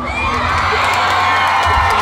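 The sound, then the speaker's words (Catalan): A crowd gives an ovation, a loud, continuous roar of cheering and shouts with a few whoops rising out of the mass of voices. “Anem a dedicar una molt forta ovació.”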